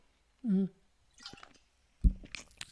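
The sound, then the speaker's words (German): Someone taking a sip of a drink: a few soft, wet sipping and swallowing noises, quiet and separated by brief pauses. “Ich muss mal eben einen Schluck trinken.”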